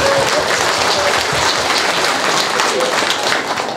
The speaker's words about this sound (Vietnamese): Vỗ tay đi.